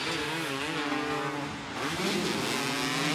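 A race car's engine roars steadily through a race, its engine tone wavering up and down as the car drives on without a break.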